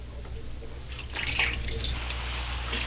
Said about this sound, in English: He's washing my feet like a common servant.